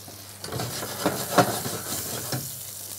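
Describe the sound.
Fish frying in a pan with butter and pepper gives a steady crackling sizzle, broken by a few louder scrapes and clicks of stirring, with no talk heard.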